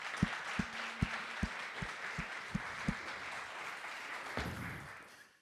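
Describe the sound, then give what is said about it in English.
Applause at a church service as a guest speaker is welcomed: a steady wash of many hands clapping, with a few sharper individual claps pulsing through at a regular beat before it fades out. “Why don't we give him a hand?”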